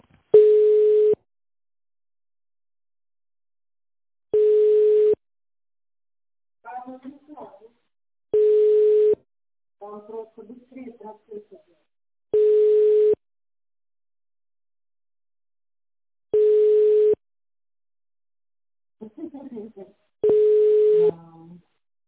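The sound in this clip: Telephone ringback tone during an unanswered call transfer: six steady, mid-pitched beeps repeating about every four seconds, with short, garbled voice fragments in some of the gaps between them.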